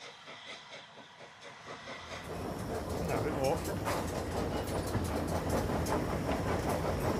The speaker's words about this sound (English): The train steams across a viaduct of dark red brick, its tall white arches dwarfing a small bridge that sits in its shadow.